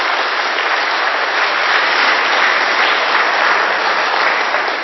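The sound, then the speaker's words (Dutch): Steady applause for a boys' team receiving a third-place trophy, dense continuous clapping of a group that holds an even level from start to finish. “Even een applausje mag er wel bij, hoor, de jongens.”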